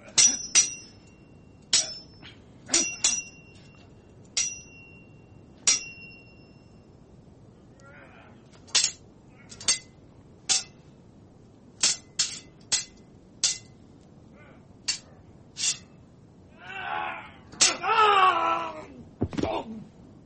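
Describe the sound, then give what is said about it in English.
Sword-clanging sound effects ring out as many sharp metallic clashes at irregular intervals, each with a bright ringing tail, and a moaning, wailing voice-like sound rises near the end. “What's my sword ratcheting sound effects? Here we go.”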